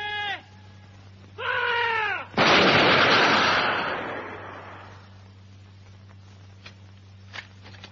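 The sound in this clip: A gunfire volley in battle: one massive blast that rumbles and slowly fades over about two seconds, preceded by two short wavering cries, with a few faint sharp cracks afterward.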